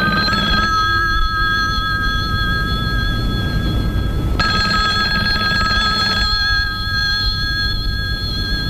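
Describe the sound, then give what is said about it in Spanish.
A telephone bell rings in a Spanish-language radio drama scene: a bright, steady electronic trill that sounds in repeated bursts with short pauses between them, loud and clear with no talk over it. “Un día José recibió una llamada telefónica.”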